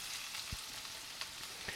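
Liver sizzles in a frying pan, a steady faint hiss broken by a few sharp spattering pops.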